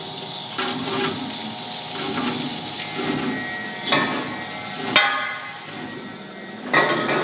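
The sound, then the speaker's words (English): Stone grinder turning Costa Rican cacao nibs into chocolate: a steady mechanical whir with soft rhythmic knocking, broken by three sharper clacks near the end. “So you just add the nibs slowly until the wheels slowly grind them bit by bit and they begin to turn into a liquid.”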